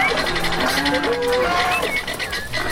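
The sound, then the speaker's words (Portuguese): Farmyard animals before dawn (chickens, a milk cow and an ox) give overlapping cries and bleat-like calls over a steady, dense bed of noise. “galinhada fazendo a festa aí no terreiro. A mimosa pronta ali pra ordenha, né? Boitufão ditando o ritmo aí na madrugada.”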